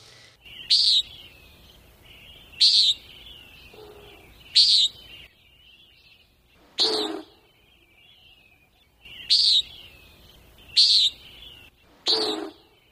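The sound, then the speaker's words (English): A common nighthawk calls alone: seven short, buzzy, nasal notes, each sharp and high, spaced about two seconds apart at a fairly steady rhythm. “It's a common nighthawk, and I chose it for this week's sound because I've been hearing them a lot of late”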